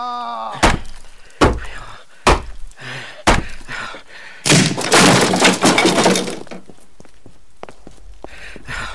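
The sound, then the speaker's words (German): A door is forced and broken down in a radio drama: four heavy, loud thuds are spaced about a second apart, then a sustained splintering crash follows with shattering glass. “Nieder mit der Tür.”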